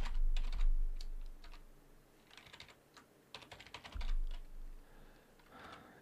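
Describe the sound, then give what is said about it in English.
Typing on a computer keyboard: many irregular clicks and key taps in bursts, fast runs mixed with brief pauses, with no talking over them. “Let me just put it into the chat here. I can type. I really can.”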